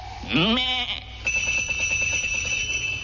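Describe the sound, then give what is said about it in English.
Sheep bells tuned to a chromatic scale ring as a shepherd knocks the sheep on the head with his crook; a sheep bleats first, then a sustained high ringing tone with rapid repeated clanks follows. “which he make use of by knocking the sheep on the head with his crook, a signal to them to ring the bell. He do it like this.”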